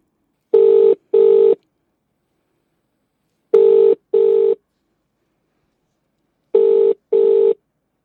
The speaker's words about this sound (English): Let's dial in my nan